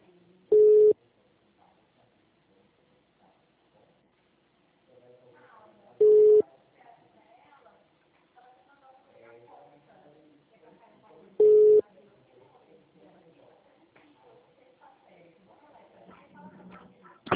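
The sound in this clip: Telephone ringing tone while a call is placed: three short, steady beeps spaced evenly about five seconds apart, with faint murmuring voices in the gaps between them.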